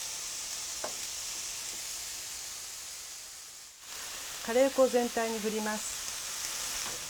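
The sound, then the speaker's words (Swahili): Onions and bell peppers fry in a pan with a steady, soft sizzling hiss that runs throughout, dipping briefly near the middle before resuming. “Kaanga vitunguu na pilipili hoho hadi viwe angavu.”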